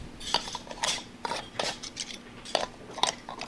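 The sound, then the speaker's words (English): Metal lids being screwed tight onto glass jars of bright green jalapeno jelly in a test kitchen, several dozen jars in all: a quiet, irregular run of short clinks, taps and gritty twisting scrapes. “in the test kitchen at the Cooperative Extension Service, tightening the lids on several dozen jars of bright green jalapeno jelly”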